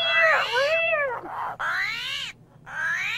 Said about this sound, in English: here's the sound of an armadillo. Ah, it sounds like a mad cat!